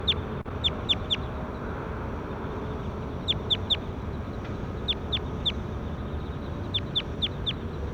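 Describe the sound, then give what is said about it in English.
Bird calls being recorded: short, high chirps come in a few quick clusters of three or four, spaced apart over a steady low background hiss. “Start recording bird zero.”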